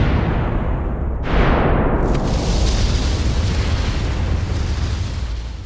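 A loud explosion sound effect: a dense, roaring rumble that jumps in force with a sharp burst after about a second, then churns on steadily and tapers only slightly at the end, with no voices.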